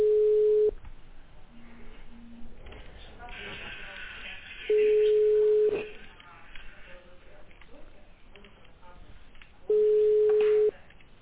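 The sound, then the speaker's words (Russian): Ringback tones of a telephone call being connected to a patient by a medical centre's automated system: three long steady beeps of the same pitch, evenly spaced, with quieter background noise between them. “Ожидайте. Соединяем с пациентом.”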